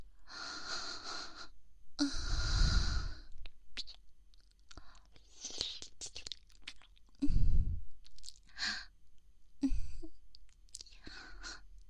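Food crunches and is chewed while someone tastes it, with a few loud, crisp crunches among softer mouth sounds, breaths and quiet whispering.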